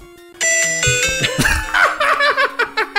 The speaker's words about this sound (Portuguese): Ó, vou, vou ligar o meu, meu Game Boy.